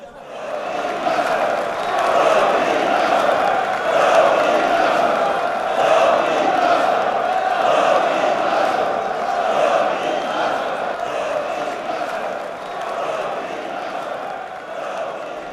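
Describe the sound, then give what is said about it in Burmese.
Supporters cheer without pause at a ski slope on Mount Buller near Melbourne during a competition. The crowd makes a steady roar of shouts and whoops that holds for the whole stretch and fades slightly toward the end. “အားပေးသူတွေဟာအဆက်မပြတ်မြည်ဟင်းနေပါတယ်။”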